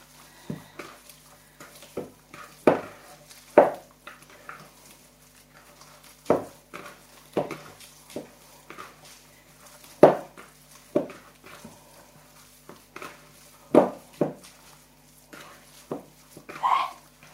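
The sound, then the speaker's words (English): Meatball mixture is worked by hand in a bowl, giving repeated soft, squishy thuds and slaps at irregular intervals, with brief quiet gaps between bursts. “Then it shouldn't slip when you're mixing things up, especially like this, where it really needs a good mixing.”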